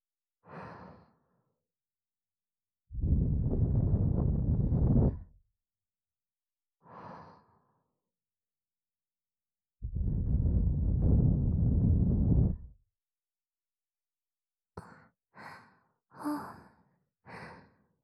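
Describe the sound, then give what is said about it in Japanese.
Slow breathing close to the ear in near silence. Two long, drawn-out exhalations are separated by shorter soft breaths, and a cluster of quick, light breaths comes at the end. “耳元で呼吸を繰り返すだけで勇者様の体ビクビクと震えています。”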